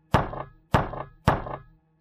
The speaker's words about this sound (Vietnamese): Anh nhẹ nhàng gõ cửa.